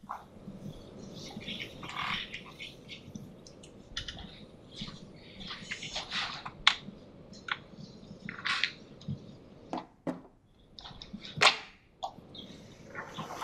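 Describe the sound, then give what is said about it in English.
A board being erased with a series of short scrubbing swipes at irregular intervals, mostly soft rasps with a few sharper bursts, and no talking. “Now I think I need to start erasing. While I erase, if you have any questions, it's a good time.”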